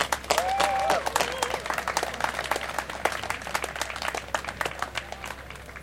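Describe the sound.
An audience gives a speaker at a political event steady applause: a dense, continuous patter of many hands clapping that eases slightly toward the end.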